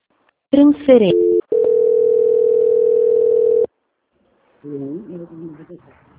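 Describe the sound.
A steady, mid-pitched telephone tone sounds while a call is transferred. It holds for about two seconds without change, with brief bits of voice before and after it.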